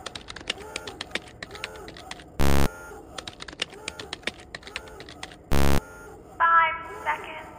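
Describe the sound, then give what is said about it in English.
A password being typed on a computer keyboard: many quick, irregular keystroke clicks, interrupted twice by loud, flat electronic buzzes, with a short stretch of voice near the end. “I just need one of you to enter your password on the screen prompt. Yeah, I never passed type in school. I don't even work here. Ah, you nincompoops, I'll do it.”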